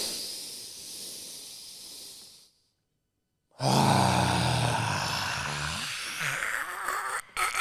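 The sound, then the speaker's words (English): Forceful, noisy yoga lion's-breath exhales, hissing and airy. A softer breath fades out, and after a pause a longer, louder rasping exhale follows. “you got to have a deep inhale, and then when you exhale, you've got to basically like make a noise. That is in yoga a lot. So breathe in for 4.”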